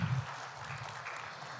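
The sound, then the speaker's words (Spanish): Applause for a translator during a bilingual sermon, a faint, even patter of clapping that continues throughout. “Un aplauso para la tremenda traductora que tenemos aquí. Let's give a round of applause for the translator we have here.”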